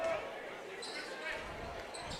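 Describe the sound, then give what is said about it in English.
A basketball dribbled on the court during a high school game at Baraboo High School, Thunderbirds against Portage. A few dull bounces sit under steady gym noise, and someone talks throughout. “Hannigan's going to dribble it out to the T-Bird logo and start it over.”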